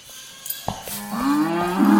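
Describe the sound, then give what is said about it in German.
A cow that had broken loose moos: a low, harmonic call rises from about midway and swells louder toward the end, preceded by a few sharp knocks. “Der Rind hat sich losgerissen. Ich mach's schnell wieder fest.”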